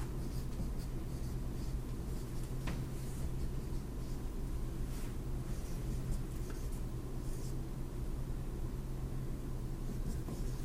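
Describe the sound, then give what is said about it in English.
Writing on a board: continuous soft scratching strokes over a steady low hum and background noise. “So we'll draw up on the board our eight R's.”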